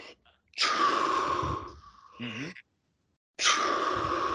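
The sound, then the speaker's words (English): A person imitates a swimmer's gulp of breath: a loud, breathy gasp held for about a second, a brief voiced murmur, then silence before another similar sharp intake of breath. “I turn my head. I take a gulp. Like, So it's like I catch a gulp of breath.”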